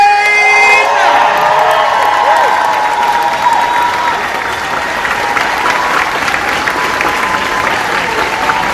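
Loud audience applause and cheering greeting guest Billy Zane onto a stage. Dense clapping runs continuously throughout, with whoops and shouts mixed in.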